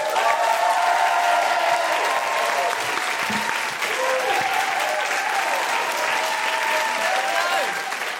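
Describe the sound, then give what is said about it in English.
An audience applauds and cheers for a guest, producing a steady, dense wash of clapping with a few whoops rising above it, sustained at even loudness throughout. “Put your hands together and make excited Guilty Feminist woohooing noises”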